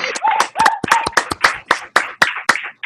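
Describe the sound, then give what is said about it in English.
Sparse clapping from a small group at an online class meeting: many separate, uneven claps land in a loose rhythm, each one sharp and distinct rather than blending into a full wash of applause. “Come on, y'all, give it a round of applause.”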